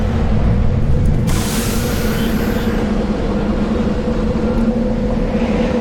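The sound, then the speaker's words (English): A generator runs in a video game at an abandoned camp, giving a steady, loud mechanical drone with a low humming tone that holds unchanged throughout, with no voices. “I can activate the generator.”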